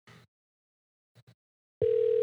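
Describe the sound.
A call's ringing tone begins abruptly after a few brief spoken sounds, a loud, steady mid-pitched tone that holds unbroken to the end.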